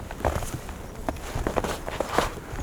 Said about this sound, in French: Allez, nous allons essayer de marcher